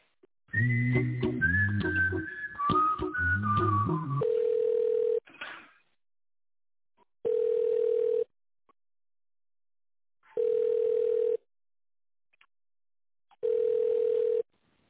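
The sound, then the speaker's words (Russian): Telephone line sounds during a call transfer: a brief electronic tune, then four long, steady ringback tones at even intervals separated by silence, with no talk. “Переведу вас сейчас на тендерного специалиста. Зовут Дина. Спасибо. Соединяю.”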